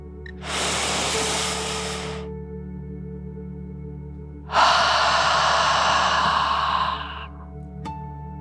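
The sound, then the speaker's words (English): Deep breathing, one slow breath in and one out, done as a calming "dragon breath" exercise at bedtime. Two long, airy rushes with a pause between them; the second is louder and longer. “take one more deep dragon breath in and out”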